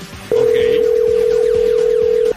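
Telephone tone of an outgoing call being dialled and ringing: one long, loud, steady tone lasting about two seconds over a busy background.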